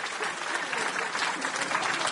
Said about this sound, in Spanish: ¡Aplausos!